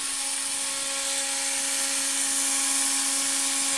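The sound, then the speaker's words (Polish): A small drill boring a hole into a tiny wheat craft piece, such as a head for a nativity figure or a leg for an angel, gives a steady, continuous high whine with a low hum underneath. “Z pszenicy wykonuję główki świętej rodziny, czy w miniaturowych szopeczkach Jezuska, czy nóżki do aniołków. Muszę nawiercić.”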